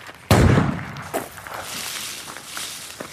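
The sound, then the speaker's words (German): A single loud rifle shot at a shooting range, fired from a prone position on a mat, cracks out as a sharp burst with a brief decaying tail, followed by faint scattered knocks. “Nachher leitet man sich auf eine Matte, bringt das Gewehr in Position und zielt. Trotz Gehörschutz bläst es einem fast Ohren weg.”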